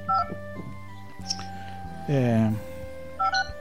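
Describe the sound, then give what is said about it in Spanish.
Short keypad beeps of a telephone being dialed, a few brief electronic tones at the start and again near the end, with a voice and other sounds in between. “estoy oyendo por ahí teléfono marcando”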